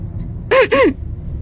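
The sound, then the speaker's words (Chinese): Throat clearing: two short voiced bursts in quick succession, a brief 'ahem' from one person, loud against a faint steady background. “他清了清嗓子。”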